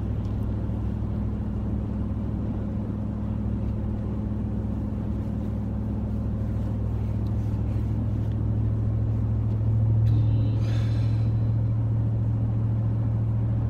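Steady low engine rumble from inside a car driving in traffic, a constant drone throughout with a brief brighter noise near the end.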